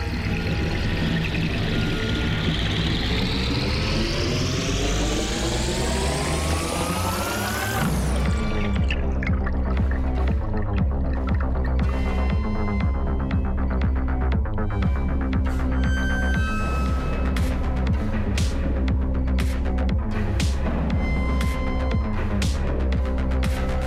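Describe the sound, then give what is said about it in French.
Underwater roar of a ship's propeller cavitating in rough sea, churning air bubbles: a dense, loud throbbing hum with a tone that climbs steadily for several seconds, then continues as steady low pulsing with crackling bubble noise. “Ce sont des bulles d'air qui se trouvent avec le brassage de la mer avec l'hélice. Il entraîne avec lui quand la mer est un peu mauvaise et il se met à caviter.”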